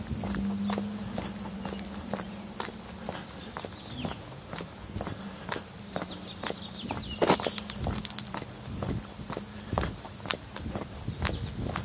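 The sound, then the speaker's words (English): Someone walks with steady, evenly spaced footsteps, many crisp taps following one another in a regular rhythm at a moderate level for the whole stretch. “Walking, not talking.”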